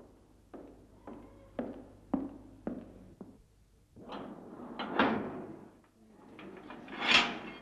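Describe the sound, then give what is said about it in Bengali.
A door is being closed in a sparsely furnished room: a run of six sharp knocks and thuds, then quiet, then three longer, swelling sliding scrapes, with no voices. “একজন শান্তি এসে দরজা বন্ধ করে দিল।”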